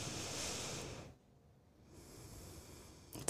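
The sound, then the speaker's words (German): Slow, calm breathing with hands resting on the lower belly: a long airy breath, a short quiet pause, then a softer drawn-out breath, all faint and without talk. “Und dann ist es ganz gut, wenn ich ungemerkt mir meine Hände auf meinen Unterbauch lege, das merkt ja keiner, und dann ganz in Ruhe ein- und ausatmen”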